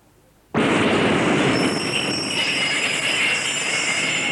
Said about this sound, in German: Und das ist eine U-Bahn.